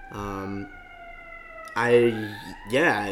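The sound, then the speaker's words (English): Wailing siren of an emergency vehicle going by. Loud tonal bursts break off and return, and the pitch sweeps in the final burst. “of course there's a fucking siren going by”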